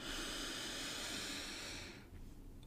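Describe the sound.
A person breathes in during a guided breathing exercise: a soft, steady, airy hiss lasting about two seconds, then cutting off to near quiet.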